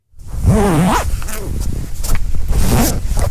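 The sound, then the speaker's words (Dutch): A jacket zipper is pulled open with a raspy, ratcheting zip that runs for about three seconds on a bright spring day; a brief voice sounds near the start. “Dat is het geluid van mijn ritssluiting. Ja, van mijn jas die opengaat.”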